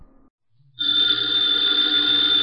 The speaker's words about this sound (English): the ringing of that phone bell means mystery, adventure